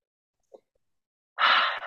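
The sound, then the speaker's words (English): One deep, breathy inhalation, fairly loud and steady, comes after a long quiet stretch broken only by a faint small sound. “I'm taking a breath here to take in the beauty of your words”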